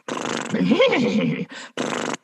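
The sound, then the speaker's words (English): A human voice imitates a horse's whinny with a wavering neigh that rises and falls in pitch, then follows with two short, breathy bursts. “you just want to start with a couple of horse sounds to get that in your wheelhouse”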